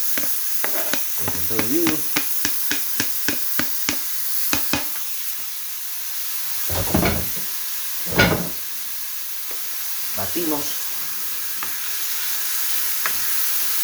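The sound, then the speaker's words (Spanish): Tomato is stirred into a sizzling pan with onion, under a constant frying hiss. A quick run of sharp utensil taps comes first, then a few longer scraping strokes. “Y vertimos nuestro tomate. Batimos.”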